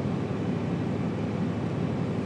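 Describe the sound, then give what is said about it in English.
A bus engine runs with a dense, steady low rumble and broad noisy roar that stays level for the whole stretch, with no distinct start-up or change in pace. “And the engine started again, and hopefully we're going to go this time.”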